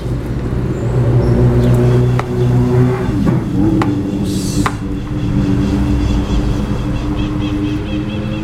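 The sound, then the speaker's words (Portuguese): Old cars passing by on a road, their low engine rumble and tire noise rolling steadily throughout, with a brief hissing swell midway as one goes past. “Olha os carros velhos passando aqui.”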